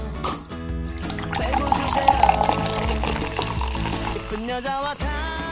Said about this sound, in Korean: 톡 쏘는 콜라 따라 드립니다.